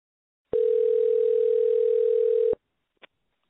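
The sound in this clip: A telephone dial tone sounds while a caller is being dialed in. The loud, steady, unbroken pitch lasts about two seconds and cuts off, followed by a single brief click.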